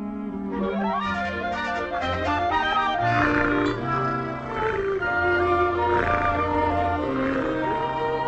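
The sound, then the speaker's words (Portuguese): A lion roars loudly and continuously in deep, rumbling bursts that carry strong tonal layers, with no talking over them. “Cordélios? Mas ele não é um cordeiro. Cordélios é um leão.”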